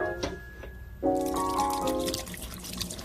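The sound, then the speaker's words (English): Water running over fingers during finger washing, a continuous trickling and splashing flow that stays fairly even throughout. “First, some finger washing.”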